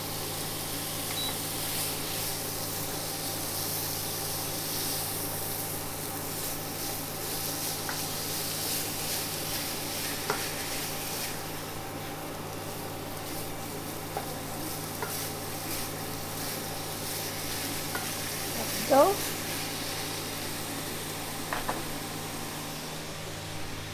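Food sizzles as it fries in a wok, a dense, steady crackle that holds for the whole stretch, with a few faint clicks rising above it.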